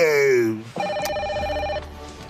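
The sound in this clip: Telephone ringing tone on a call to social services. A single steady, bright ring of about a second comes in right after a voice speaking.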